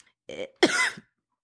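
Coughing after choking: a short throaty cough, then a harsher and longer cough with a rasping catch, followed by silence.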